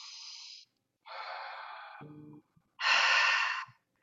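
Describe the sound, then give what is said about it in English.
Slow breaths drawn in during a guided breathing exercise: three long, airy inhales separated by quiet pauses, with a brief low rasp between the second and third; no talk. “Breathe in and hold.”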